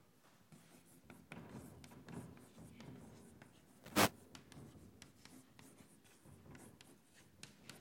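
Pen strokes scratch faintly as handwriting is done while working through a math theorem: soft, irregular rubbing strokes throughout, with one sharp tap near the middle.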